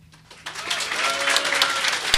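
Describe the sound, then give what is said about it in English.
An audience applauding to welcome comedian Richard Herring onto the stage at an Edinburgh Fringe show: clapping starts faint, swells sharply after about half a second and then keeps up as a loud, dense, sustained burst. “Ladies and gentlemen, please welcome Richard Herring.”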